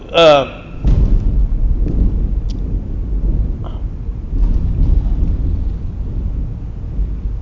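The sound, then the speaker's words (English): Thunder rolling during a church sermon: a deep, sustained rumble that swells and fades over several seconds, preceded by a brief voice at the very start. “Was that lightning? And so, yeah, God just said amen to his word.”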